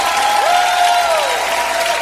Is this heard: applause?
yes